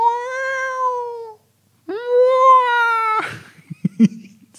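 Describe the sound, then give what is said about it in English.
A person's voice imitates a whale call, producing two long, wavering, cat-like wails. The second swoops upward at its start before holding steady. A few short knocks and rustles follow. “I'm trying to do a whale call, but I just sound like a dying cat.”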